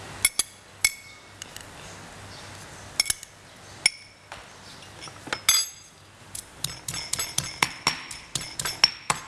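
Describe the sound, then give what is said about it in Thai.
Garlic is pounded with a pestle in a mortar: sharp, clinking knocks, a few scattered strikes at first, then a quick, steady run of many hard hits toward the end. “ก็โขกกระเทียมอาจจะสับพริกขี้หนูแต่อันนี้ใช้โขกให้เข้ากันนะคะ”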